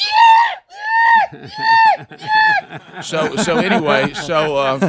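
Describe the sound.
A worn-out drive belt, one of several that needed replacing and still screaming after a first repair attempt, lets out four loud, high, shrill squeals in a rhythmic pattern. Voices then follow with chatter and laughter.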